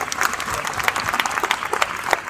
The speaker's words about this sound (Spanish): Así que un aplauso para Sekian.